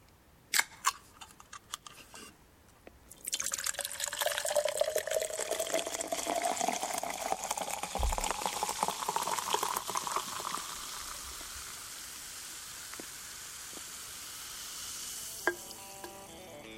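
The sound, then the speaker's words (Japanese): Beer pours into a glass: a few sharp clicks, then a steady rushing, fizzing pour whose tone creeps upward as the glass fills. It settles into a soft, crackling fizz that thins out toward the end. “ビールをコップに注ぐ音。”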